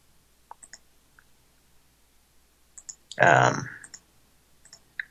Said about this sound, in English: Sorry about all the clicking and farting around here. I'm just trying to copy and paste some shit.